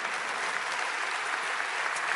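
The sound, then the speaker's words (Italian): An audience applauds a speaker at a forum event with steady, dense clapping at a moderate level throughout, with no talking. “Io ringrazio ancora, un bel applauso per il professor Giuliano Noci.”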